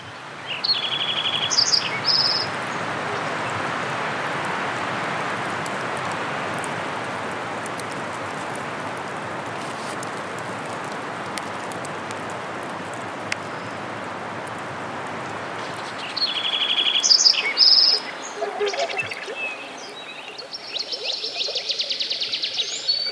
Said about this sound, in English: So on these recordings, you can hear birds calling, insects, sometimes mammals, and the sound of wind in the trees.